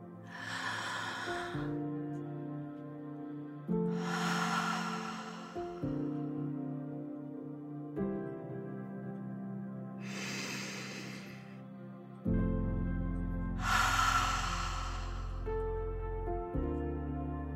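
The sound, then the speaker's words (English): Four long, deep cleansing breaths rush in and out, airy and fairly loud, spaced several seconds apart over a sustained, soft tonal musical backdrop. “Let's take a big, deep cleansing breath together.”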